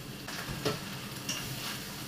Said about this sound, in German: Aufpassen, dass der Speck und Zwiebel nicht anbacken. Temperatur reduzieren.